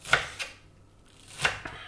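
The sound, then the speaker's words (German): A knife chops onions while cooking: four crisp, fairly quiet thuds, with two close together at the start, a pause, then two more, and no voices. “Ja, ah, wir haben echt schon viele Zwiebeln zusammengeschnitten, ne?”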